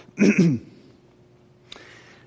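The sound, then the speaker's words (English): A single loud throat clearing from a tickle in the throat: a short, gravelly, rasping burst of about half a second, followed by near silence and one faint click. “Sorry, I've got a tickle in my throat, as you can hear.”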